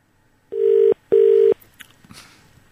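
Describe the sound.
Telephone ringback from a hotel room call to reception: two short, steady buzzing tones in quick succession, followed by faint clicks and rustling.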